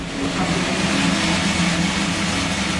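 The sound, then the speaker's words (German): Steady, loud whirring roar of a large stainless steel coffee roasting machine as a batch of beans roasts at over 200 degrees in a former garage on an industrial estate. The sound is an unbroken, even drone with no talk. “In einer großen ehemaligen Garage im Gewerbegebiet röstet gerade eine Ladung Kaffee in der großen Edelstahlmaschine.”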